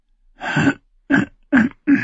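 A person clears their throat with four guttural rasping bursts: a longer first one, then three shorter, evenly spaced ones, all fairly loud and alone.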